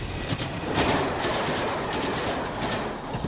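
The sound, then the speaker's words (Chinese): An elevated train running past overhead, loud and rumbling, with a heavy continuous roar and a rhythmic clickety-clack of wheels throughout. “不久，一辆高架列车在小房子上面开来开去，空气中到处是烟尘，噪音也非常的大，震得小房子直抖。”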